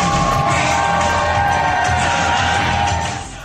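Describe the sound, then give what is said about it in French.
Parti Québécois supporters cheering Paul St-Pierre Plamondon in Drummondville, a loud, steady crowd roar of cheers and shouts that fades away near the end. “Paul-Saint-Pierre Plamondon recevant un accueil chaleureux de ses militants du Parti québécois en fin de semaine à Drummondville”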